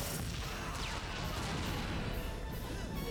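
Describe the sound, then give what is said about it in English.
The Power Rangers Quadro Blaster fires a sustained blast, a dense, loud roar of crashing, explosive noise that fills the moment without any talk. “Quadro Blaster, let's do it! Think he'll use the Battleizer? Aim! Fire! Fire!”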